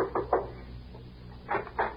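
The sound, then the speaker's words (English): Knocking on a door, faint and hollow, in two quick pairs of raps separated by a short pause, with nothing else heard. “I knocked at the door.”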